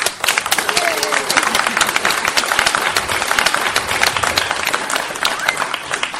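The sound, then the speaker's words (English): Audience applause in Brussels during a street interview, a loud, dense run of clapping that fills the whole clip, with a voice speaking faintly over part of it. “There was a round of applause there in the audience.”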